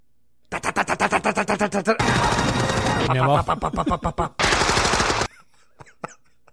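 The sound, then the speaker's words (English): A voice imitates machine-gun fire: a rapid train of sharp staccato bursts, then loud sustained rattling roars broken by short gaps, ending in a few faint scattered clicks. “I do a good machine gun.”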